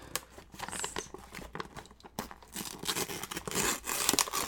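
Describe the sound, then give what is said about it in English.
A package is unwrapped with soft, close crinkling and tearing of wrapping paper in many quick, irregular bursts, quiet overall with no talking. “Just unwrapping.”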